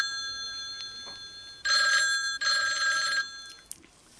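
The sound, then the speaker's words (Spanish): A telephone rings twice, each ring a bright, steady electronic trill lasting under a second with a brief break between them. A faint constant tone sits underneath, and a single short click follows the second ring. “¡Pi! Que suena el teléfono.”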